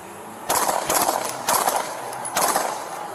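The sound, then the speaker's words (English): Gunfire from an AK-47 rifle, heard as a few loud, harsh bursts of shots with short gaps between them. “we got a man with an AK-47. He's shooting at us.”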